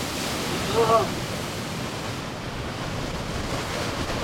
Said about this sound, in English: It's this giant waterfall that reminds me of Yosemite Falls in the valley. It's raging. Let's go across this bridge at Wapama Falls and try not to get too wet.